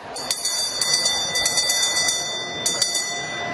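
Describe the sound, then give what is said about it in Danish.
A handbell is rung by the speaker of the Danish parliament to open a session in the chamber. It gives a series of bright, ringing strokes in two quick bursts, with the tone sustaining between strikes. “Henrik Frandsen, Folketingets nyvalgte formand, ringede med klokken.”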